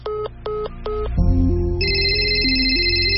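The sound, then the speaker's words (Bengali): A mobile phone rings with an incoming call from an unknown overseas number. Three short electronic beeping bursts are followed by a continuous synthesized ringtone melody with stepping tones, heard alone. “প্রণয়ের সঙ্গে কথা বলে phone রাখতে না রাখতেই আবার phone, অচেনা নম্বর, তাও আবার বিদেশের।”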